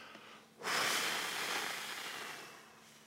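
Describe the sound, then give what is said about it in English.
A single long breath blown out through the mouth, given to demonstrate the Greek word pneuma: a rushing, breathy hiss that starts abruptly and fades slowly over a few seconds, heard alone with no talk. “It means moving air. It means breath. It means wind.”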